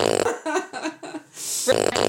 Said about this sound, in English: That way I know we'll have to put a fart there. That'll be very appropriate.